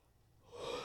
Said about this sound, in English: Take a deep breath.